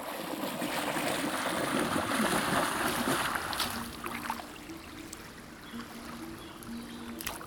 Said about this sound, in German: Am Rhein. Die drei Rheintöchter tauchen aus den Fluten auf.